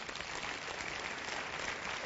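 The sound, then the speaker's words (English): A church audience claps after a sermon story: quiet, dense applause that keeps an even, unbroken texture. “Now, I'm glad you're clapping”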